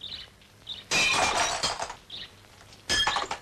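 Window glass breaks in two loud crashes a couple of seconds apart, each a sharp burst followed by tinkling shards; the first smash rings out longer before a quieter gap.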